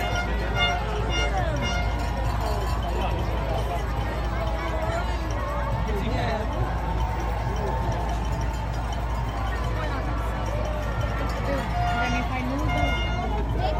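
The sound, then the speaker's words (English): Crowd noise at the New York City Marathon in Central Park: a steady, continuous babble of many spectators cheering runners, held at an even level throughout with no pauses. “this was the sound of the marathon the first Sunday in November, as it always is here at Central Park.”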